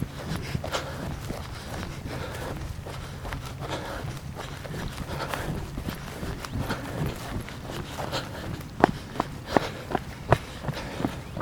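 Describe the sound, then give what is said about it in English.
Footsteps on a wooden footpath leaving a park, a steady run of many soft thuds and knocks, with a few sharper, louder steps toward the end. “This is usually the wooden footpath I take as I leave the park and get on Pinellas Trail.”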